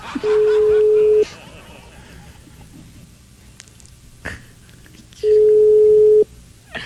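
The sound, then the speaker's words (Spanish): Phone line tones as a call is dialed to a station director, two steady one-second tones separated by a few seconds of low background noise and faint clicks. “Llamando al director de la emisora.”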